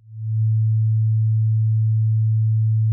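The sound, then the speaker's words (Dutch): A pure sine-wave tone, a fundamental with no overtones, swells in over the first half second and then holds one steady, low, smooth pitch until the end. “Als je alleen die grondtoon laat trillen, zonder de boventonen, dan krijg je een sinusgolf.”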